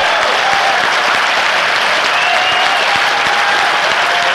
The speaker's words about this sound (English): Give a cheer to the web folks joining us on the web. Welcome to the NAMP Foundation Grand Rally for Music Education.